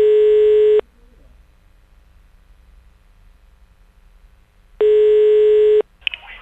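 Telephone ringing tone: two long, steady electronic beeps separated by a long quiet gap, with a brief click and rustle after the second beep.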